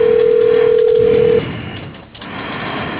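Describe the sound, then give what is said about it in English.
A single steady telephone keypad tone sounds from pressing 1 in an automated phone menu. It holds for about a second and a half, then gives way to faint, narrowband line hiss. “it's like press 1 for dial by name, whatever, and I press 1.”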